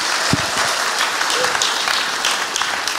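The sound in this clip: Audience applause welcoming a speaker at a church, dense and steady clapping that holds at an even, loud level throughout.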